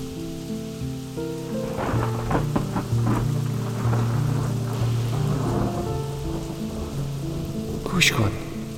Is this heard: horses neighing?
no